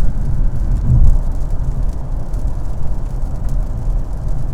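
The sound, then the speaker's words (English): A car with an automatic transmission drives in sport mode after a downshift into sixth gear, giving a steady, dense low roar of engine and road noise that stays fairly even throughout, with no talking. “So I think we're going to try sport mode. That'll be for the transmission. It just downshifted, sixth gear. I'm going to let the automatic do its work.”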